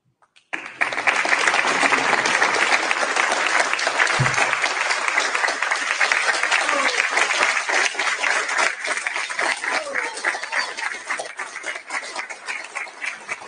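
An audience at the September 29 presidential debate applauds as Republican nominee President Trump and Democratic nominee Vice President Biden are welcomed. Loud, dense clapping starts abruptly and holds steady, thinning slightly toward the end.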